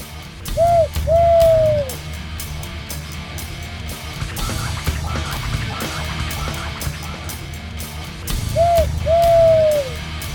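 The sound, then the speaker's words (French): An owl hoots twice, well apart. Each call is a short note followed by a longer, slightly falling one, and the calls stand clearly above a low rumbling background. “Hop, une chouette.”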